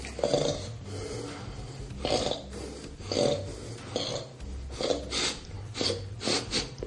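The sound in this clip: A man snorting in repeated harsh, nasal bursts, many loud snorts spaced irregularly over a low steady hum, with no talk.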